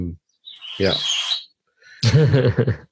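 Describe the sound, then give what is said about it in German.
Birds chirping in a few short bursts of high twittering, with voices mixed in among the calls. “Vögel, die gezwitschert haben. Ja, Vögel.”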